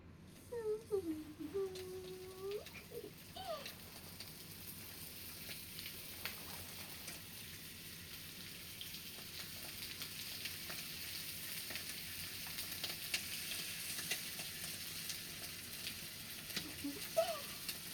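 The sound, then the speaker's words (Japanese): Pork for ginger pork sizzling in a frying pan: a soft, continuous crackling hiss that grows slightly fuller over time, with a brief voiced sound near the start. “肉の焼ける音もいいよね。”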